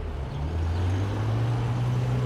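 A used car's engine drones low and steady as the car drives off, the hum stepping slightly higher in pitch after a moment, with no voices.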